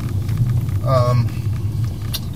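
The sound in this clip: A car on a short drive home through slow-moving traffic gives a steady, low engine and road rumble that continues evenly throughout.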